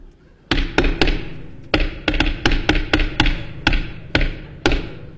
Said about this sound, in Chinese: 你干嘛呢？ 敲门。 您敲门，您不说叫门吗？